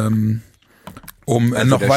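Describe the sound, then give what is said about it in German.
A few quick computer clicks while someone clicks through a program, heard in a brief pause between stretches of talk. “Parallel klicke ich mich gerade durch das Restprogramm”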